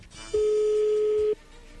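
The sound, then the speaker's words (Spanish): A telephone line ringing as a call connects: one steady, mid-pitched ring tone lasting about a second over faint background hiss. “ya entró ahí la llamada. Vamos a ver qué pasa con Susana, ¿ok?”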